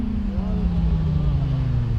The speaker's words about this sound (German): Beim nächsten Motorrad fällt Thomas Schreck die Lautstärke auf.